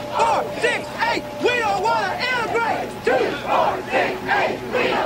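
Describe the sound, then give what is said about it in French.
An angry crowd shouts at a Black student outside Central High School in Little Rock during desegregation, with many voices yelling over one another in rising and falling jeers that never let up. “Elle a été suivie par une foule en colère, chacun d'entre eux lui criant dessus.”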